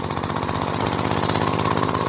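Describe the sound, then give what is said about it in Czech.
An early Laurin & Klement Type A motorcycle engine runs with a loud, continuous, rapid putter of firing pulses and a rough, buzzing mechanical tone. “První motocykl Laurin a Clement typ A zněl nějak takto.”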